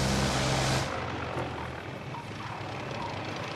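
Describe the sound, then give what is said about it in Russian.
Propeller drone of a single-engine airplane coming in to land toward a hangar on a sunny, hot day. A loud, rushing engine roar in the first second settles into a quieter, steady hum. “Одномоторный самолет идет на посадку к ангару.”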